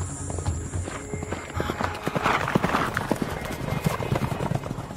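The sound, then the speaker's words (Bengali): Horses gallop up a rocky path in a dense, quick clatter of hoofbeats on hard ground. The clatter holds a fairly steady, loud rhythm throughout. “আমরা ঘোড়া ছুটিয়ে এই পাথরের খাঁজ বেয়ে উঠে গেলাম।”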